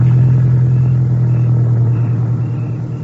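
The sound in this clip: Steady low engine rumble of a car being driven, loud and continuous with a constant droning tone, no talk over it.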